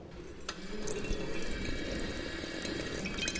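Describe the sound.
Water flowing at a lake where the cold water can be drunk straight from the source and miners once drank it: a steady, soft trickling and splashing with a few small drips, no voices.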